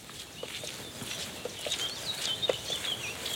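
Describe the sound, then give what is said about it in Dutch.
Icterine warbler song, a bird that mimics other birds, recorded in the Peel: many short, high chirps and whistled notes in a quick, varied run, fairly faint over a steady hiss. “Ja, hier horen we een spotvogel. imiteert andere vogels, vandaar de naam spotvogel.”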